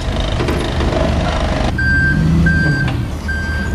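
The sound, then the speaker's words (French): Reversing alarm of a truck or lift vehicle working at a festival site after the event beeps three times in a piercing high tone above a rumbling engine. “Entre les camions, les fourgons et les engins élévateurs, le site grouille de monde.”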